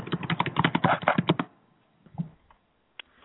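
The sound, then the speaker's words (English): Keyboard typing: a rapid, dense burst of keystrokes lasting over a second, then a few scattered, fainter clicks. “Did somebody type a little louder?”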